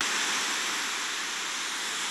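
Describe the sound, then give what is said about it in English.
Steady white noise: an even, unbroken hiss that stays constant in level and texture throughout, with no other sounds. “Sounds a little like this kind of white noise, you know?”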